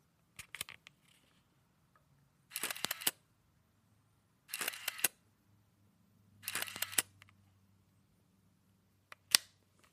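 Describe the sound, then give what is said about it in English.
Shutter clicks and motorized film-advance whirs from an Olympus Infinity Junior pocket compact camera with auto winder. Faint clicks come first, then three short whirring winder bursts a couple of seconds apart, then a final sharp click, all quiet and alone. “this is the Olympus Infinity Junior, which is a pocket-sized little camera like you might see a mom using at a kid's birthday party. It's got an auto winder, which you'll hear.”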